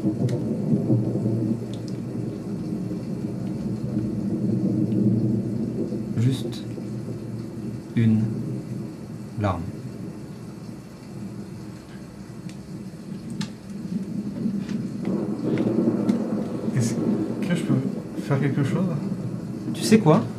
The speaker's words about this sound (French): Et alors que le silence et le tonnerre grondent